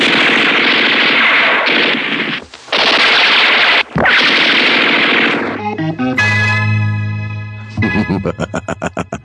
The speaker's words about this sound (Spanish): ¡Van a disparar contra nosotros!